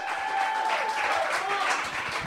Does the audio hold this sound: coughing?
no